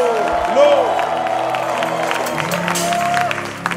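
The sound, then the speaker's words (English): A church audience at a night prayer meeting claps and shouts praise, a busy mix of hand claps, cheers and whoops with voices calling out over it. “Clap your hands for the Lord and give him a shout of praise.”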